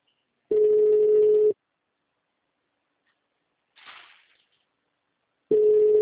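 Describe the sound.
Telephone ringback tone: two long, steady, mid-pitched beeps about a second each, separated by a long silent gap with only a brief soft rustle between them.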